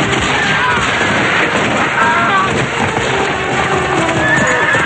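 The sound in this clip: Horses gallop as riders storm a camp: a dense, continuous din of pounding hooves mixed with whinnies, loud and chaotic throughout.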